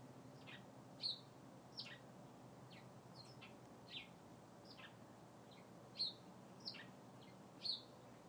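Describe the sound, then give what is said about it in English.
A bird tweets from hiding in tree branches, giving scattered short, high chirps. A few louder ones stand out among softer, quicker calls, all faint over a steady low background hum. “It's letting out little different kinds of tweets in between its loud ones.”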